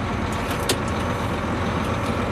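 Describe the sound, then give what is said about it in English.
A large Class 1 truck sets off for a drive, its engine giving a steady, dense rumble that stays level throughout, with no talk. “Okay, let's go for a little drive. Because you have to realize that when you're in a big vehicle like this, you can't be in a hurry.”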